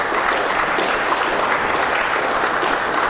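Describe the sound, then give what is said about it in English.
Audience applause at an evening church gathering: a dense, even roar of many hands clapping, loud and sustained without a break. “All right, let's give him a hand here tonight.”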